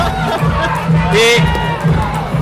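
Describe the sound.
A capacity crowd at a wrestling event chants for a wrestler in a rhythmic, pulsing chorus of voices, heard beneath a commentator's talk.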